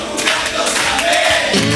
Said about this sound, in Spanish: Mira cómo canta el público.